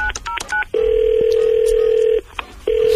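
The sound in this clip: Telephone line tones as a call is placed: a few quick dialing beeps, then a long, steady line tone lasting about a second and a half, a brief break, and the same tone returning briefly.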